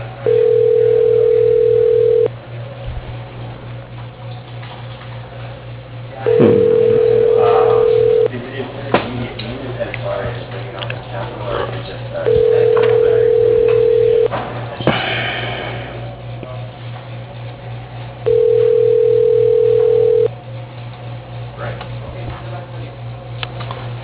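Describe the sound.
Telephone ringback tone: four steady beeps, each about two seconds long, repeat at even intervals over a constant low hum. Faint noises fill the gaps between rings.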